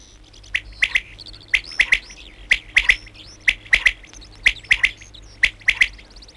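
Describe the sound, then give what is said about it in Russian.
Songbird phrases of sharp, high chirps repeat in short clusters at fairly even intervals, clear and bright above a low, steady background hum. “Кончается птичий концерт. Звучит последняя песенка.”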